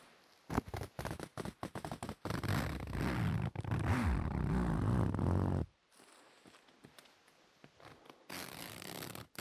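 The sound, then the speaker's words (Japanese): A zipper being opened and closed: a loud, dense rasping run lasting several seconds, then a quieter gap and a shorter burst of rasping. No voices. “どうです？ファスナーの音、お好きですか？”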